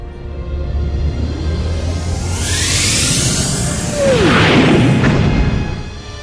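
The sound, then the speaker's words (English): Starship engaging warp drive in a science-fiction audio drama: a low, steady rumble builds under a broad, swelling whoosh that peaks loudly past the midpoint, then fades out near the end. “We're clear of the fleet and can engage warp drive. Then do so, Mr. Palmer. Best speed to Delphi 7. Warp 8 or better if Mr. McGuire's new relay can take the strain. Punch it.”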